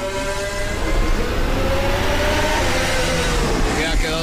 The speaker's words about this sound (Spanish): Y con menos tráfico en la pista, todavía pueden marcar mejores tiempos. Y la vuelta de calentamiento de Lando Norris.